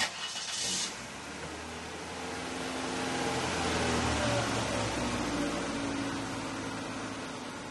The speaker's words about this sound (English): We drive away from the coast in his dented blue Festiva.